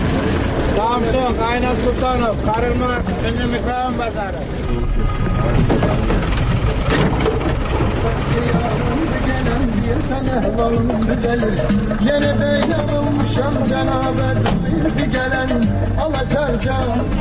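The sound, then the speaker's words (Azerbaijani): A crowded city bus sets off from a busy market stop, its engine rumbling steadily and surging as it pulls away, under constant chatter from passengers on board. “Avtobus yola düşür.”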